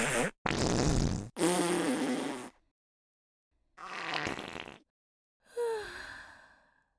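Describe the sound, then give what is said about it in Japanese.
Five broad, rasping fart bursts of uneven length, the first three close together and the last two separated by short silences. The final bursts take on a breathy, sighing tone. “いい？出すからね。君に嗅がせるためにおならするんじゃないのよ。”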